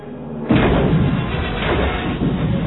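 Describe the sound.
Missiles explode against a starship's shield in a space battle: a sudden heavy blast hits, then a loud, dense rumbling roar continues to the end.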